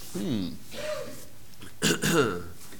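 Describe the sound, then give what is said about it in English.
A person clears their throat in a few short, rough, voiced bursts with brief gaps between them. The sound is moderately loud and heard alone. “Got a tickle in my throat there.”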